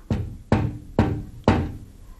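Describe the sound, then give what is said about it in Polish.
Four sharp knocks on a window, spaced roughly half a second apart, each a crisp rap with a short ringing tail and no voices around them. “Czy ktoś pukał do okna?”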